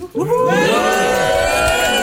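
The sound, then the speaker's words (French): A live studio audience cheering during a Swiss radio music show, a crowd of voices whooping and shouting together. The loud, sustained, bright cheer follows a brief quieter start. “mais ce public, il est nombreux. Il m'encadre comme ça. Il permet de rendre cette émission très vivante. On aimerait les entendre.”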